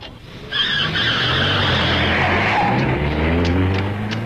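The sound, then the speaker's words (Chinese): A car drives off and then brakes hard, its tyres letting out a long, loud skidding squeal over a low engine rumble that starts about half a second in and holds to the end. “他理也没理我，开车走了。老远了，我还听见他急刹车的声音。”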